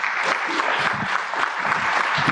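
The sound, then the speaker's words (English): Audience applause welcoming two guests to the stage at a church service: dense, continuous clapping that stays steady and fairly loud throughout. “How about a hand for them?”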